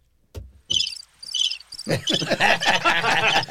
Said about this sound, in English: The cricket's funnier than you. The crickets are funnier than me.